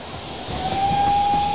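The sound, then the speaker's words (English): A steam train hisses at a railway station with a steady, breathy roar that swells slightly early on. A thin, steady whistle-like tone joins partway through and holds to the end. No voices are heard. “Are we going on that train, Gregory?”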